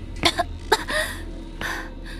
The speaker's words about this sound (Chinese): 郑婉晴咳嗽着走出来，一脸怀疑人生。